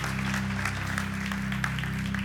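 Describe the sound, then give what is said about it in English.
Audience applause welcomes a speaker at a church gathering, steady, even clapping that holds throughout over a sustained low hum. “why don't you put your hands together and give him a very special welcome”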